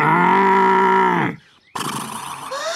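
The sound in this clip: Bulls mooing: a long, loud, low moo rich in harmonics holds steady, then breaks off into a brief silence before a second, rougher bellowing call follows.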